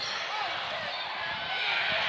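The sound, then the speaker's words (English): Basketball dribbling on a court during a school basketball game: faint, irregular thumps of the ball mixed into a constant hiss of crowd and gym noise, with voices in the background. “Has the dribble top key.”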